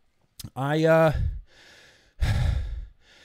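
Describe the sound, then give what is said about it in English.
Heavy breathing after running: a drawn-out voiced sigh gives way to a few loud, breathy exhalations with quieter breaths between them. “I definitely need to catch my breath. That was some serious running.”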